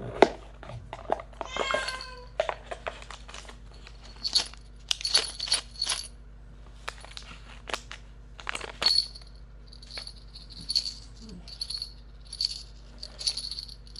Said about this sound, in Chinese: 等等，给你找宝贝。